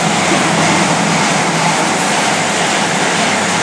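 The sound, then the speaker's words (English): A train rushes through a station at about 100 miles an hour, a loud, steady roaring whoosh that fills the whole clip without letup. “That's a train going past at about 100 miles an hour, which is really scary until you get used to it.”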